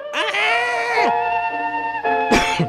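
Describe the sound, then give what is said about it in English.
A voice imitates a singer's hoots and shrieks on a high note: a loud, wavering, strained tone that swoops downward and breaks off, then holds steady before a final short shriek. “Her voice, if you listen to it, it's a series of hoots and shrieks, and she'll see a high note and pretty much go,”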